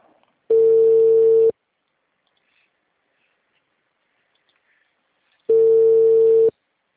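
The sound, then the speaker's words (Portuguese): Ringback tone of an outgoing telephone call: two steady mid-pitched tones, each about one second long, separated by a long silence, with no talk. “Tentando ligar para esse homem.”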